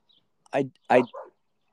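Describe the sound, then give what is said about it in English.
Dogs barking: three short, sharp barks in quick succession, the last one softer and higher than the first two. “Oh God, there's dogs.”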